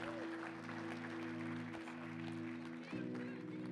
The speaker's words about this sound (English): Give them all a hand.